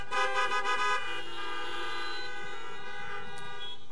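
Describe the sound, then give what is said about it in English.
Car horns toot in overlapping, sustained tones that are loud for about the first second, then give way to a fainter held horn note. “I expected some horns to toot right there.”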